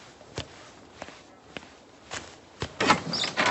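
A door being opened in a house: a few soft, spaced knocks, then a louder burst of rattling and scraping at the end.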